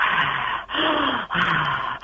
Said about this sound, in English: if when you lay down, if you breathe very heavily